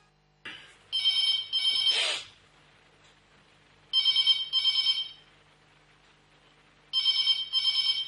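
An electronic telephone ring sounds as a caller is put through to a phone-in: three double rings, each pair of bright, buzzy trills separated by pauses of about two seconds.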